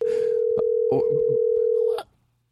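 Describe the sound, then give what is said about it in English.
A steady telephone dial tone holds for about two seconds while numbers are dialed, broken by a few short clicks and bursts, then cuts off abruptly. “What am I doing? I'm dialing numbers?”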